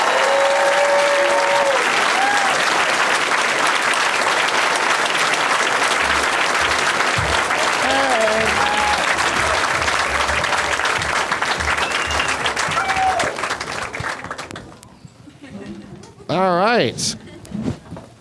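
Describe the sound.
Loud, dense applause from a studio audience welcoming three guests onto a show, holding steady for several seconds before fading away as a voice starts talking at the end.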